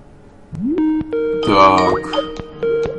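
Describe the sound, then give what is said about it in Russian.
Telephone ringtone for an incoming call: a few bright electronic melodic tones that sound in short bursts, with a richer chime-like cluster in the middle, moderately loud. “тут нам кто-то звонит, но мы не сможем сейчас ответить”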